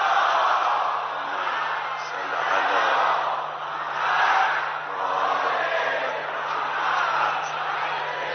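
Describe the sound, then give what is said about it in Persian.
A crowd loudly recites a salawat in unison in the Imam Khomeini portico of a shrine, many voices chanting together in steady waves that swell and ebb several times. “که دوست دارم در این حرم نورانی، در این رواق امام خمینی، نثار روح امام خمینی هم یک صلوات مردانه جانانه بلند بفرستیم.”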